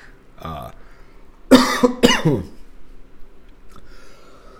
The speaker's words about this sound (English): Oh, excuse me. Choked on my dip.